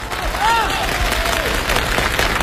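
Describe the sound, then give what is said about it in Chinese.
Applause and crowd noise rise at the live auction in a 1993 Spring Festival Gala comedy sketch, with clapping blended into audience murmur while a voice speaks over it. “朋友们，1993年春节联欢晚会现场拍卖开始， 让我们以热烈的掌声表示祝贺。”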